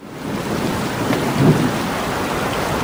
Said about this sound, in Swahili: Mara baada ya siku tatu kupita, mawingu yanatanda na radi zinasikika.